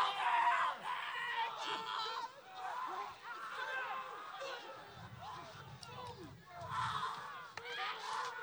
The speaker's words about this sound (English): what you're hearing here is the sound that was recorded on set, but all these off-screen screams and stuff, this was all recorded after the fact.